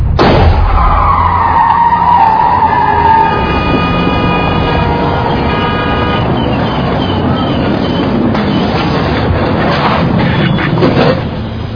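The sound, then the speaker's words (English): A car skids and grinds along on a flat tire, a loud, steady roar of rumbling scraping noise that runs almost unbroken from start to end. “They did this. It's a flat tire.”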